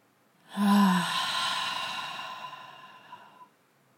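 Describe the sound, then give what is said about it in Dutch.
One deep breath during a guided breathing exercise, drawn in through the nose and let out through the mouth as a single long, sigh-like exhale lasting about three seconds. It starts strongly and slowly tapers off, heard alone. “Nog een laatste keer. Adem diep in via je neus en uit via je mond.”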